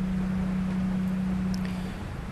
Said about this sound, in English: And the diesel generator outside also just turned off.